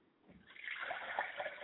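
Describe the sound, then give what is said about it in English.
Water is poured onto the ground as a libation, a faint splashing trickle that swells after a brief quiet start and carries on as a steady, gurgling pour. “I pour libation to the ground so that the water will hit there and take up root and spring up and grow.”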